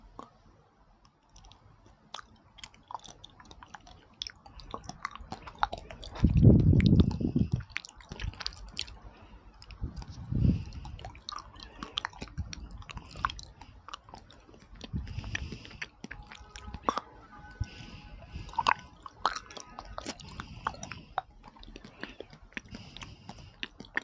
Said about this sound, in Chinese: 这个上面说是鸡尾酒味的，尝一口。